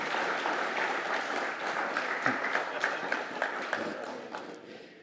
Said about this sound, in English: I think we need to give them a clap